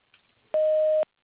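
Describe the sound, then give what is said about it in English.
A voicemail beep sounding right after an outgoing greeting: one clean, steady mid-pitched tone lasting about half a second, alone with no talk. “please leave me your name, number, and a message at the tone”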